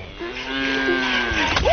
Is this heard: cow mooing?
yes